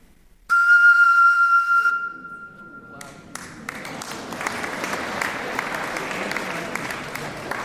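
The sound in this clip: A tone from blowing across the mouth of a bottle partly filled with water: one steady, clear whistle-like note lasting about a second and a half, followed after a short pause by audience applause.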